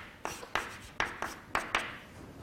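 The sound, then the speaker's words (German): Handwriting on a surface while an equation is written out: about six short scratchy strokes in a quick, uneven rhythm, fairly quiet and with no talk. “Na, ich schreibe es nochmal hin.”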